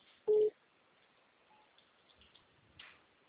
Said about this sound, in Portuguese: Eu fui tentar atender outra ligação aqui, não deu certo, então caiu.